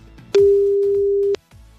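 A single steady telephone tone sounds as an outgoing call is placed after a number is dialled. It is one flat, mid-pitched electronic beep lasting about a second and clearly louder than the faint background on either side.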